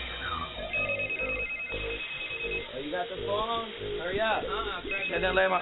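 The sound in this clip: A telephone rings in two stretches of steady, shrill, thin-sounding ringing, partly buried under several men talking loudly over it.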